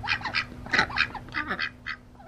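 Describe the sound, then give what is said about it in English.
Ducks crowd a lake dock on a hot evening, begging for bread chunks. They give many quacks and honks in an irregular chorus of overlapping nasal calls, moderately loud with a faint steady hum beneath. “a gaggle of ducks swarming the dock begging for bread chunks”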